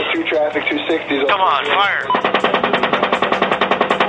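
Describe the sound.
Gunfire in a played attack video: radio-style voice chatter fills the first half, then a rapid, evenly spaced string of machine-gun shots runs loud to the end.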